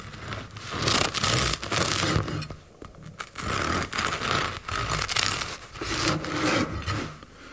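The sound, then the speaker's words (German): A knife saws through a loaf of white bread fresh from the oven, making many repeated rasping strokes with a crusty, scratchy texture, fairly loud and with no talk. “hat noch das Weißbrot mitgebracht. Das schneidet sie.”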